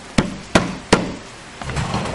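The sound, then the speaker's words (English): Three sharp, evenly spaced knocks on door 3 at a science building's concrete loading dock, loud and crisp against a quiet background, followed by a stretch of softer, low-level noise. “Please knock on door 3.”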